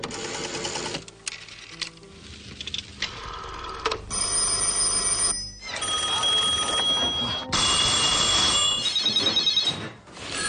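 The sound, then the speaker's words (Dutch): A telephone rings loudly and insistently amid dense, rattling mechanical buzzing that runs continuously for several seconds. “Kann wohl mal jemand an das verdammte Telefon gehen?”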